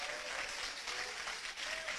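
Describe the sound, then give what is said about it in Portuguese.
Dense, steady clapping from a church audience during a worship service, sustained without a break for the whole moment with no voices standing out. “Exalta o Senhor com palmas bem alegre para Jesus. Palmas e glória a Deus.”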